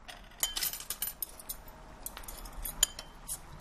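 Cutlery clinking against dishes during a meal, many sharp, bright metallic taps and scrapes at an irregular pace, some louder than others, over a faint quiet background.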